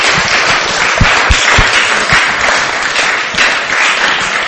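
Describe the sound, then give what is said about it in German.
Audience applause at a bilingual church service, a dense steady wash of clapping with a few louder individual claps standing out, loud throughout. “Lasst uns dem Herrn einen Applaus geben.”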